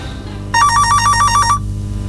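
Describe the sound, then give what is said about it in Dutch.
An electronic telephone ringtone chirps in a single loud burst of rapidly alternating warbling tones lasting about a second, set over a low, steady background hum, with no voices. “Ah, we hebben een telefoon.”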